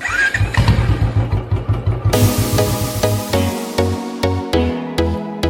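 A Royal Enfield Bullet motorcycle engine throbs loudly with rapid, even low pulses. In the second half it changes to heavier, more widely spaced thumps.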